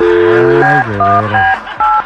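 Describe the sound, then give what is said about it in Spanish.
A telephone is dialed for a prank call: a quick run of stepped electronic keypad tones, loud and bright, changing pitch from press to press with no talking over them. “vamos a marcarle a un compa que no es pastelero ni nada”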